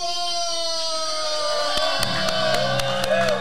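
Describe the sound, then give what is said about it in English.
A full-house crowd cheers and yells at a pro wrestling show, a sustained roar of voices with sharp thumps and hits breaking through in the second half. “Oh, yeah, I am hyped for this. And the crowd is hyped as well. And it looks like a full house tonight.”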